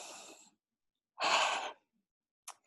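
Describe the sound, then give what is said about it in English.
A deep breath from a nervous person with a racing heart: one loud, airy rush lasting over half a second, with a softer breath just before and a brief one after, and no talking. “So I'm just going to take a deep breath and pray to Maharaj”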